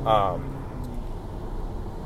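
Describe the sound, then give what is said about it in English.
Car interior noise while driving to work: a low, steady road and engine rumble runs throughout, with a short burst of speech at the start. “And I'm being honked at. Sorry, I apologize. I do this podcast while I'm driving to work.”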